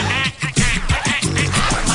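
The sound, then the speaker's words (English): Loud, nasal duck quacks from a man's voice imitating a duck in an insurance commercial, coming in many rapid successive calls. “The fucking duck!”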